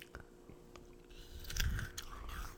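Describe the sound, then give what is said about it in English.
Frozen grapes being chewed, faint crunchy bites and squishy mastication, with a louder cluster of crunching midway through. “I'm eating some frozen grapes.”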